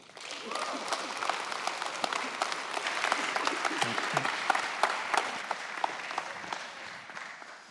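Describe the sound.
A chapel audience applauds to welcome a visiting speaker. The clapping is steady and moderately loud for several seconds, with individual claps standing out from the mass.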